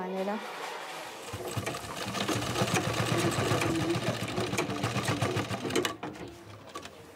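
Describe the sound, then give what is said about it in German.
A sewing machine stitches uniforms in a tailor's sewing room, starting after about a second and running as a rapid, steady mechanical whirr under a voice speaking. “Die Uniform ist mehr als nur Stoff. An ihr hängt ein ganzer Wirtschaftszweig. Nähstuben von Schneidern. Nähen ist hier Männersache. Ich nähe das ganze Jahr über Uniformen.”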